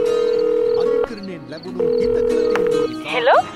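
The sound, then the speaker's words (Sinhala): Telephone ringback after a number is dialed: two long, steady ringing tones about a second each with a gap between, then a voice speaking briefly at the end. “පස්සේ ලයි මිනෝලගේ number එක dial කළේ වෙනදටත් වඩා හිතේ වැඩි තිගස්මකුත් එක්ක.”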